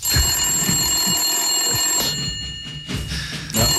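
Telephone ringing while a call is placed to a physiotherapy service: a loud, steady electronic bell-like ring that breaks off briefly and then resumes.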